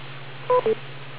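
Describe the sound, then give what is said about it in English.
Two short touch-tone telephone beeps in quick succession, a bright electronic pair rising briefly above a steady low hum, on a ham radio net as a caller is told to wait for the beep. “K2RIWO TechNet, please wait for the beep”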